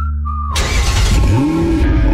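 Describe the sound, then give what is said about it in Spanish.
A car engine revs: a steady tonal hum gives way to a sudden loud roar as the throttle opens, with a rising engine note that climbs and holds, no voices present. “Motores listos. Pisamos el acelerador”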